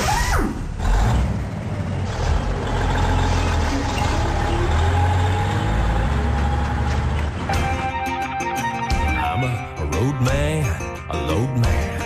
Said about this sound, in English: Écoutez comment un gros camion aux États-Unis démarre. Le moteur fait un drôle de bruit.